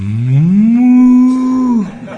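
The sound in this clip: A cow gives one long, loud moo that swells at the start, holds a steady low pitch, and drops away at the end.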